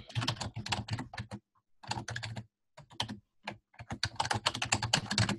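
Typing on a computer keyboard while filling in a web order form: quick runs of crisp key clicks broken by short pauses, with no talk.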